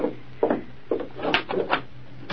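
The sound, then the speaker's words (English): A wooden front door is opened, giving a few scattered woody knocks, rubs and scrapes of moderate loudness over a faint, steady background hum. “Open the door.”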